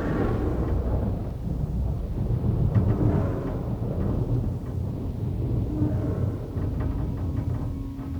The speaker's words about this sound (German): Lieben Sie den Regen, Senorita?